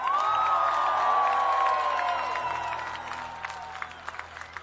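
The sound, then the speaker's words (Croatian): Audience applause and cheering at a show with small children in the crowd. A long, piercing whistle slides slowly downward over the noise, which fades toward the end into a few scattered claps. “Veliki aplauz za vaš pozitivni odnos prema životu i osmesima, da vas čujem.”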